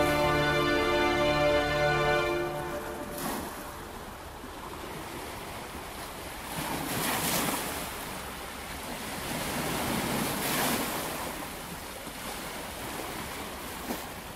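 Sea waves wash onto a shore in a steady, full roar of surf that swells and ebbs in slow surges. A brief musical tone opens the sound and then cuts out.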